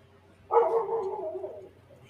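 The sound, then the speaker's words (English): Dog barking: a single drawn-out, mid-pitched bark, fairly loud and heard alone over a quiet background. “Who was that? That was my dog.”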